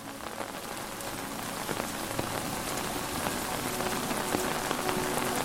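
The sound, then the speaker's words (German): Rainwater runs over stone-paved alleys lined with channels fed from the rooftops, heard as a steady, dense patter of drops with scattered sharper splashes and no voices. “Kleine Rinnsale fließen gemächlich zwischen den Steinen hindurch.”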